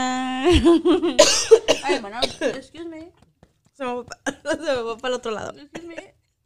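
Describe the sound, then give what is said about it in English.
Coughing from a person who is unwell, short rough bursts breaking up a stretch of lively talk and vocal sounds. “Ya, güey, nada más la tos, güey, que se me mezcló.”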